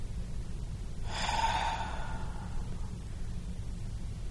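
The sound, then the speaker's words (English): A single ragged breath, a noisy, airy inhale-exhale lasting about two seconds, rising out of a steady low background hum and fading away, with no voices. “That was a ragged breath.”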